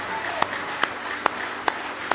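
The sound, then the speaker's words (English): Rhythmic hand claps of praise at a church service: five sharp, evenly spaced claps that land roughly every half second over a continuous busy background. “Somebody give him one more hand clap of praise in the house of the Lord.”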